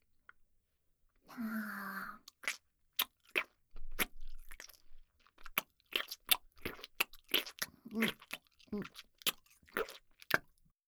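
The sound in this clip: Crunchy chewing of food: many sharp, irregular crunches and bites follow a longer breathy burst near the start. The chewing is moderately loud and close, with no talk over it.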